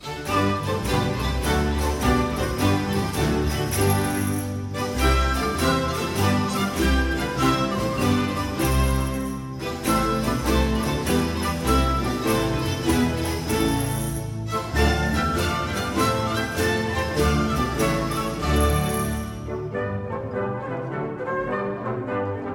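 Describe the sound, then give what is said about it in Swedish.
Morisca dance music closing an early Baroque opera. A full ensemble plays a lively, steadily pulsing dance in repeated phrases of equal length, loud and continuous, then thins out at the very end. “Operan i Monteverdis tappning avslutas på ett liknande sätt som den började då, med en morisca som det heter. Symmetri även här då, toccata i början, morisca i slutet, och den låter så här.”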